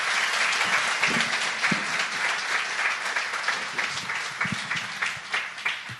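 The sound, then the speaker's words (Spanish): Audience applause welcomes a visiting doctor and his wife at a gathering. The clapping is steady, dense and loud, and it sustains without a break for the whole stretch, easing only slightly toward the end. “recibamos con un aplauso al doctor Luke y a su esposa”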